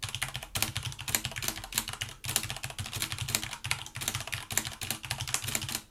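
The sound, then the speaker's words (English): Rapid typing on a mechanical keyboard with Cherry MX Red switches: a dense, steady clatter of many crisp keystrokes in an uneven, fast rhythm, fairly quiet and alone with no voices. “Cherry MX Red, general typing.”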